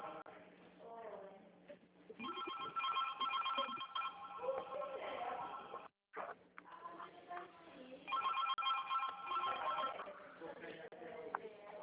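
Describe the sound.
A phone ringing tone buzzes twice in long, steady rings while someone is called to get an email address for a bank loan. People talk before, between and over the rings.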